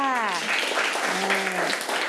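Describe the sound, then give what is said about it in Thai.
Children clap for a classmate in a class, a brief burst of dense, steady applause with an adult voice speaking over it at the start. “ว้าวปรบมือกับเพื่อนค่ะ”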